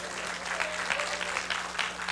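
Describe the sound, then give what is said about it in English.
A church audience gives a hand clap of praise: many hands clapping in a dense, steady wash, fairly loud, with a faint low hum underneath. “Go on and give him a hand clap of praise.”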